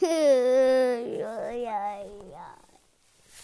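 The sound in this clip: A young child cries in a high, wavering wail that drops in pitch, then breaks into shorter whimpering sobs that fade toward silence.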